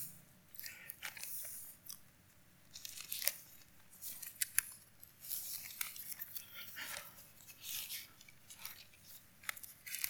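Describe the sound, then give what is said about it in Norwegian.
Bible pages are leafed through, giving many soft, crisp paper rustles and flicks in an irregular stream. The sound stays quiet throughout. “Ja, jeg må bla litt her nå.”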